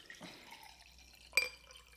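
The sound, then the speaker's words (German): Water dripping: one crisp, bright plop stands out after a fainter earlier splash, over quiet background. “Das schöne Wassergeräusch.”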